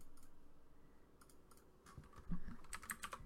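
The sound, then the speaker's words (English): Faint keyboard typing as a name is entered on a computer: scattered soft clicks gather into a quicker run of keystrokes toward the end. “Hold on, let me just type in her name.”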